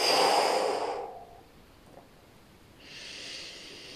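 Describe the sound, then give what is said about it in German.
A powerful exhale during a guided yoga breathing exercise: a loud, breathy rush of air that fades out. After a quiet pause, a softer, steadier breath follows. “Lächle dir zu und atme kraftvoll aus.”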